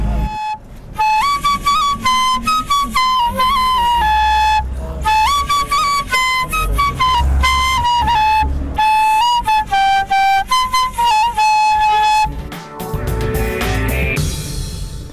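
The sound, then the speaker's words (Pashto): A Kabul municipality worker plays a flute: a bright, loud melody of held notes and quick ornamented runs, with brief pauses, ending in a burst of noisier sound. “د ژوند رنګونو کې مو د کابل د ښاروالۍ له یو کارګره واورېدل چې وایي هم کار کوي او هم شپېلۍ غږوي.”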